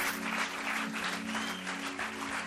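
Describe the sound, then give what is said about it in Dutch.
Audience applause for a pastor: a dense, steady wash of clapping at an even loudness for about two and a half seconds, with a low steady hum underneath and no speech. “let's give Pastor Phil a great big hand. Laten we Pastor Phil een applaus geven.”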